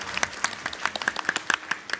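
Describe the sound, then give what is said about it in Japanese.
Audience applause greets a company president introduced at a corporate investor-relations event: many quick, fairly faint claps in a brisk, uneven patter. “盛大な拍手でお迎えください。”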